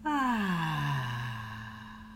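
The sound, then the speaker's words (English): A deep out-breath during a guided breathing exercise, released as a long voiced sigh. Its pitch slides down, then holds and slowly fades. “One last breath in together. Breathe in and out.”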